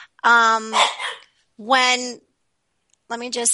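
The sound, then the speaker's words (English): A dog barking in the background during a conversation, heard as three separate loud, tonal barking bursts of about half a second each, divided by clear gaps of silence. “I just kind of lost my train of thought with the dog barking in the background.”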